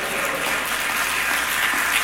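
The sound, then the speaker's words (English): A church audience clapping hands during a sermon, a thick and steady patter of many palms at moderate loudness. “Clap your hands and say, praise the Lord.”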